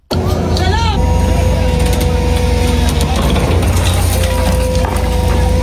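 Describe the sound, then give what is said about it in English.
Diggers clear debris after an airstrike: a loud, steady engine drone runs throughout, with scraping and crunching of broken material layered over it. “That was the sound of diggers clearing debris after one of those US-Saudi attacks,”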